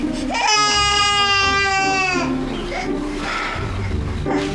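A baby cries with a loud, high, wavering wail for about two seconds, then breaks into quieter fussing and whimpering sounds.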